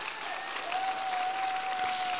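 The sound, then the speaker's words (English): Audience applause: a dense, steady wash of clapping hands sustained throughout, fairly even in loudness with no voices standing out. “Before I bring Taylor up, could we give Dana Neal a round of applause?”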